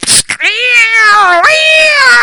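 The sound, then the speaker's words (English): A person's voice imitates two cats yowling and fighting as they slide together in a moving car on a curve. After a few short bursts, one long, wavering yowl jumps higher midway and holds loud to the end. “Every time I go around a curve, because I went 301 and down to number one down that way, I go around a curve, them cats would slide together. And all of a sudden you hear,”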